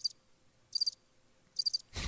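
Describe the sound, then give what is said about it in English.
Cricket chirping played as a soundboard effect: three short, faint, high trilled chirps evenly spaced, followed by a brief burst of noise at the end. “That's it. Crickets.”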